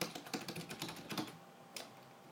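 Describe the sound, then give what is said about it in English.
Fingers type a word on a computer keyboard: a quick run of light, crisp key clicks, then a short pause and one last isolated keystroke, quiet and with no talking. “Let me type in the word accessibility.”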